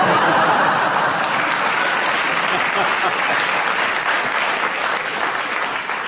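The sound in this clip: A television studio audience applauds a quick, humorous answer on a panel show with loud, sustained, even clapping that fills the whole clip and fades slightly at the end.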